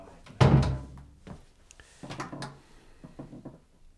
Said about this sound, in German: Mach mal die Tür zu.